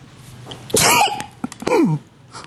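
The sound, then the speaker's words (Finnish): A person sneezes: a sharp, loud burst with a voiced tail, followed moments later by a second breathy burst whose tone drops, over faint background noise. “Kuka aivastaa tässä?”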